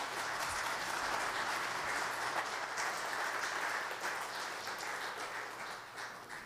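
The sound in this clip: Church audience applauds to welcome a guest speaker from Chosen People Ministries, a soft, steady wash of clapping that holds evenly and eases slightly toward the end, with a faint low hum beneath.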